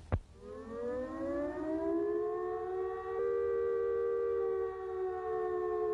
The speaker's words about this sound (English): First, if you are at home, if attack is imminent, you will hear the attack sound like this.